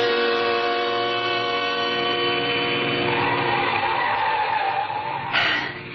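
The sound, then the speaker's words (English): A car driving fast up a steep, winding mountain road: a loud, continuous droning engine roar with dense, steady harmonics, holding level throughout, with a brief surge near the end. “We were driving too fast, but I knew that if I slowed down at all, I would begin to tremble.”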